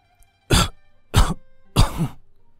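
An old man's dry coughing fit: three harsh, loud coughs at an even rhythm, each short and rasping, with quiet between them.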